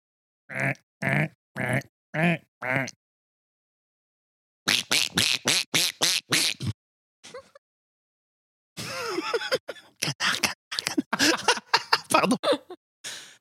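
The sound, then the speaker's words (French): A voice imitates a duck's quacking in short nasal, throaty bursts. A few evenly spaced quacks come first, then a quicker run of them, and after a pause a longer, busier stretch of many quacks. “Je voudrais maintenant un canard.”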